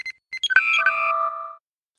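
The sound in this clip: A starship communication hailing signal sound effect: a few quick electronic beeps lead into layered, sustained whistling tones that step down in pitch and then cut off, heard alone.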